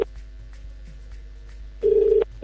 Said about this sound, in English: if you know your phone is ringing, pick it up.